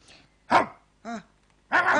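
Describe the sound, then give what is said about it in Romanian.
A stray community dog barks in a park: a few short, sharp barks separated by brief pauses, the last one louder and more drawn out. “Vedeți, eu cred că e un câine fără adăpost. Da, un câine comunitar.”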